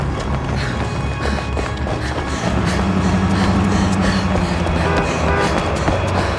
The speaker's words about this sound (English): Who's that? A tank.